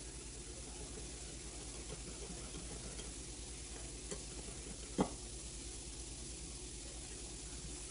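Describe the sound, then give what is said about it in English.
Chicken thighs being stirred with a tablespoon of ginger garlic paste for tandoori chicken give a steady, wet, sizzling scrape that runs throughout, with one brief sharp knock partway through. “One tablespoon of ginger garlic paste. Add it in there. And give it a good mix.”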